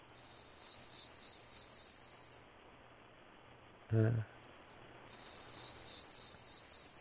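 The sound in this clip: Prairie Warbler song: two runs of short, buzzy, high notes, each run climbing steadily in pitch, separated by a pause broken by a single low thump.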